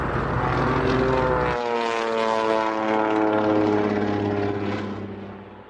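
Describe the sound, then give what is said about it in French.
A propeller airplane dives toward a car. Its engine gives a loud, sustained droning hum with a buzzy harmonic tone, shifts in timbre early on, and fades toward the end. “L'avion fonça dans le vide et se rapprocha de la voiture.”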